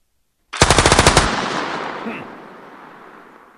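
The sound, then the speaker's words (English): A light machine gun fires one short, rapid burst of closely spaced loud shots, followed by a long rumbling decay that fades away after the firing stops. “Light machine gun.”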